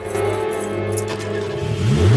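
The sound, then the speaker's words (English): A stalled car's engine is started again: a steady low drone runs under faint rattles, then the revs climb sharply near the end. “With the car now pointing the right way, she goes to drive off, but the car stalled and she struggles to restart it.”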